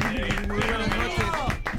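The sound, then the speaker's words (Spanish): An audience applauds a singing-contest winner with quick, even claps, while a voice carries on over the clapping. “Por favor, aplausos, señoras y señores.”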